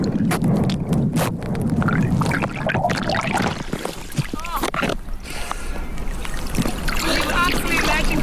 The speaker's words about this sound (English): is my phone at the bottom of the Grand Canal recording the noise from the Viking Splash Tour.